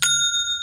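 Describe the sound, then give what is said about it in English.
An online shop's sale notification chime: one bright, bell-like ding with clear ringing overtones that sustains through the short clip, with no other sound. “You know what that sound is, don't you, Ravi? It's a sale. That is a sound of making money on Shopify.”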